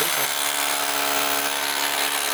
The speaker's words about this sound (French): C'est la première fois que j'utilise une perceuse, enfin je sais pas exactement le nom, mais. C'est une perceuse marteau percuteur.